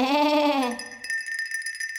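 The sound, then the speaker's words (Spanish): A sheep gives a single loud, wavering bleat that dips in pitch as it ends. Soft, high tinkling chime tones follow. “pero estas no son orejas, son ovejas.”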